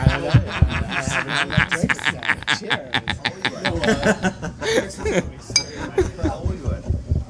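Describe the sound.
Glasses clink in a toast, a brief bright ring amid lively talking and laughing voices.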